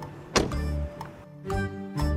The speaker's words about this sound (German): Oh, und von hinten kommt er da. Da sehe ich ihn. Ich mache mal die Tür auf.